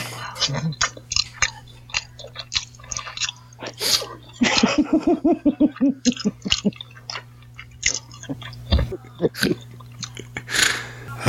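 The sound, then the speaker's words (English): Mukbang-style eating: close, wet chewing and crunching repeats in many uneven bursts, with moist smacks and a few louder bites. “That's called mukbang, by the way. Did you know that's a thing? People like to get weird and listen to people eat on the internet.”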